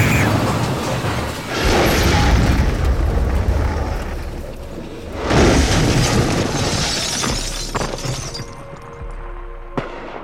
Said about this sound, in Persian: صدای مهیب انفجار پایه های میز رو میلرزونه.